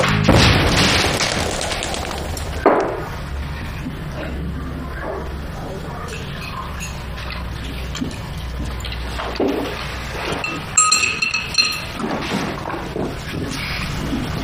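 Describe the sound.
A thrown hand grenade exploding: heavy booming bursts and crackling noise rise out of a dense, loud background, with voices talking throughout.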